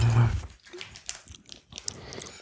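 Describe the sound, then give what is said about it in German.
Chewing on a Greek olive makes soft, wet, irregular biting and mouth noises at a low level, in a few uneven bursts. “Heute Abend gibt es ja sonst nichts mehr. Dann kann man eine Olive mehr essen.”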